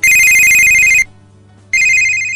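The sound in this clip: A telephone rings for an incoming caller's call: a loud, bright electronic ring in two bursts separated by a short pause, the second burst cut off.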